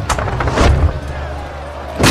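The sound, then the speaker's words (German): Heavy low thuds and booms from a catapult flinging dead bodies over city walls during a siege by the Golden Horde, loud and forceful, with a sharp impact at the end. “Madonna, sie schießen immer noch ihre Toten mit Katapulten über die Stadtmauern. Seit gut einer Woche geht das jetzt so.”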